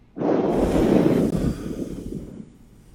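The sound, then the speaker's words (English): A long, forceful exhale blowing out imaginary birthday candles as a calming breathing exercise: one steady breathy rush lasting nearly three seconds, strong at first and tapering off toward the end. “Go ahead and inhale. And then what I want you to do is you're going to hold. And what you're going to do is you're going to blow out the candles.”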